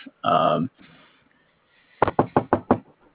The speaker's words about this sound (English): We cut back to the forest ranger's house where another ranger has come up and knocked on the door.